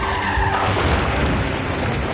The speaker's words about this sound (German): Die Windschutzscheibe zersplittert. Die beiden Autos bohren sich ineinander.